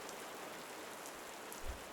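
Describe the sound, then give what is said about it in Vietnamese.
Heavy pouring rain makes a soft, continuous hiss of dense drops with no talk and only a faint low thump near the end. “Ngó nhìn màn mưa ầm ầm như trút nước, ông Hỏa”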